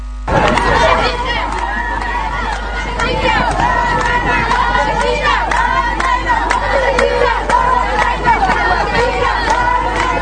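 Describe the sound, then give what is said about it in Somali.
A large crowd of protesters from the Banadir region marches through the streets of Mogadishu, a loud, continuous mass of shouting, chanting and cheering voices that swells and stays dense throughout. “Dadweyne ka kala yimid degmooyinka gobolka Banaadir ayaa waxa ay dibadbax ballaaran ka sameeyeen taalada daldirka Daasoon iyo taalada Sayidka ee magaalada Muqdisho, iyagoo socdeer ku maray qaar ka mid ah wadooyinka magaalada.”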